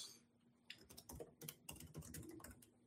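Typing on a computer keyboard as a search query is entered in Polish. Many quick, light keystrokes fall in uneven bursts, fairly quiet, with no talking.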